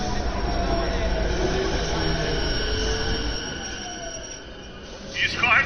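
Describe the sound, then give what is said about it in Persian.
A train approaches a station with a loud low rumbling roar and faint squealing wheel tones. The noise eases off toward the end, and a short burst of higher hiss follows. “قطار در حال نزدیک شدن است، احتیاط کنید.”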